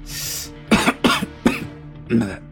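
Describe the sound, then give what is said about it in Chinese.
A man coughs after choking on unfamiliar cigar smoke. There are a few short, sharp coughs, each a hoarse burst of breath, loud and separated by brief pauses. “黑二骨子里就看不上乔家，他抽了口之前从黑狗那里搞到的雪茄，被不太适应的味道呛得咳了两声。”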